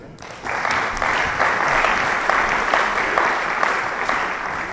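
An audience at a church service applauds. Steady clapping starts sharply after a brief quiet moment and holds at an even, dense level for about four seconds before easing slightly at the end.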